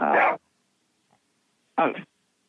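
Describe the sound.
Two short, loud barks from a dog, each a single gruff burst, separated by over a second of silence.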